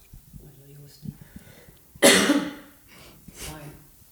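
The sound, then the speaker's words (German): One loud, harsh cough bursts out, with faint throat and breathing sounds before and after it. “Ich wundere mich die ganze Zeit, dass ich noch nicht huste. There it is.”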